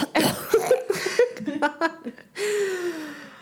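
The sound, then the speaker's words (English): A man imitates clearing his throat beside a sleeping woman's head in bed, a vocal 'ahem' of several short throaty bursts followed by a longer voiced sound that falls in pitch. “Suddenly, a man cleared his throat next to her head. Ahem.”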